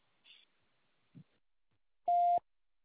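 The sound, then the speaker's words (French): A voicemail beep sounds as one loud, steady, mid-pitched tone lasting about a third of a second. Two faint, short clicks come before it, over near silence. “Merci de ce message après le signal sonore.”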